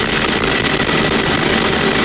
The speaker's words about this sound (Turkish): Türk yangın söndürme uçakları Avrupa semalarında.